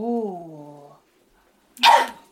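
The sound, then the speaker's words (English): A single sharp human sneeze bursts out loudly after a soft, falling hummed vocal sound and a brief pause. “But I'm going to sneeze now. Nice. All these scents are going to make me sneeze.”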